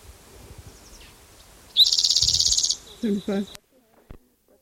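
A bird call from a field recording tape: a rapid, buzzing trill of high repeated notes lasting about a second, then a thin steady high tone and two short lower calls, set against near silence.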